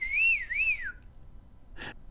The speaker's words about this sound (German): Dabei stieß es einen leisen Pfiff aus.